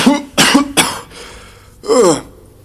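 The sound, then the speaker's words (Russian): Harsh, intermittent coughing from a dragon: a few rough bursts close together, then a pause before one more cough. “Сквозь прерывистый кашель наконец молвил слово дракон.”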